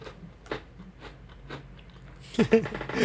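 Biscuits are being chewed in soft, crunchy bites at a slow, regular pace, growing louder and busier near the end.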